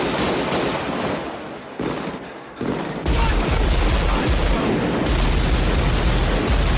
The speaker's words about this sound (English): Minimal dialogue. And that's there's 3 minutes of nonstop shooting.